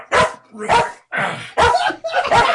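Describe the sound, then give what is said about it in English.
A real dog barks five times in a quick, fairly regular sequence. The barks are loud and rough, each a short burst with small gaps between them. “Wife or a real dog in there? Real dog.”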